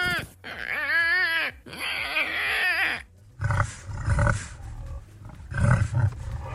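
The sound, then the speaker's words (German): A larger wild boar squeals and grunts. High harmonic squeals with wavering pitch come first, then rough, low grunting snorts follow in loud bursts. “Das ist ein Wildschwein, oder? Ein größeres, ja.”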